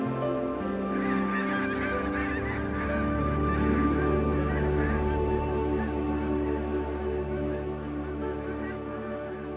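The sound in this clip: A flock of migratory birds calls in a dense, continuous chorus of goose-like honks that stays loud and steady throughout, with no clear breaks.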